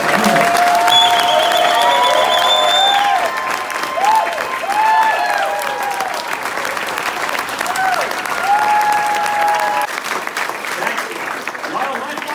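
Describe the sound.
Applause from an audience welcoming a guest: steady, dense clapping that continues through the whole stretch, with voices mixed in.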